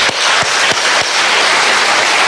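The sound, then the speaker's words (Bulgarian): Audience applause at a ceremony honouring people produces dense, continuous clapping at a steady level, with a few sharper individual claps standing out early on. “Аплодисменти за всички вас.”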